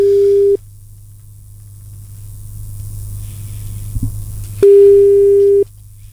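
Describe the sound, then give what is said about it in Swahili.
An outgoing call's ringing tone: a steady, loud beep is cut off at the start, then a long pause with low hum, then a second identical beep of about a second. No voices. “Chukua simu basi.”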